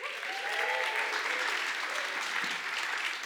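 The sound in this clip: An audience applauds to welcome a speaker, with dense, continuous clapping from many hands that holds an even loudness throughout.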